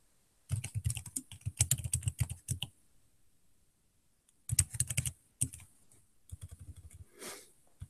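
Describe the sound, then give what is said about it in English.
Typing on a computer keyboard: a long burst of rapid, crisp keystrokes, a pause of near silence, then several shorter clusters of clicks, clear and alone without talk. “Oh, I typed that wrong. I mistyped it.”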